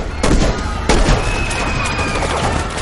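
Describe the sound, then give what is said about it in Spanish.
Gunfire erupts from a church choir loft at security men in the nave during a thriller film scene. A loud, continuous fusillade of overlapping shots, punctuated by a couple of especially sharp, heavy bangs. “disparan desde el coro contra los hombres de seguridad que están en la nave”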